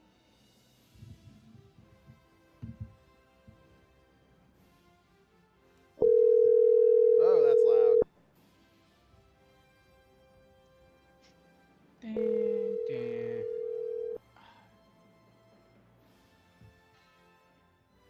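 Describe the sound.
A telephone call rings out unanswered, with two long, steady ring tones separated by a pause. Quiet talk and faint background noise come before and between them.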